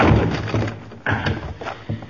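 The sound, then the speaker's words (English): A door is forced open with a shoulder inside a used-clothing dealer's store, giving a few heavy, dull thuds over a steady noisy background. “Now put your shoulder to this door.”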